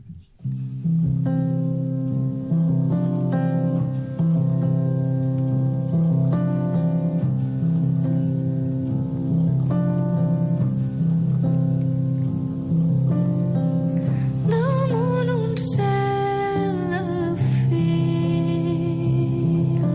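Music from a singer's album, built on sustained low harmonic tones with a steady, dense texture throughout. A brighter, higher layer enters near the end.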